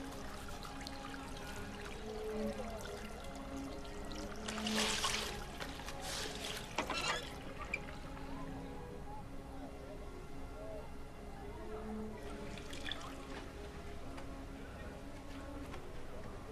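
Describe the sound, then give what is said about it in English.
Faint water trickling and sloshing as a flannel is rinsed in a bathroom, with a few louder splashy bursts among soft, steady dribbling sounds. “She rinses out a flannel”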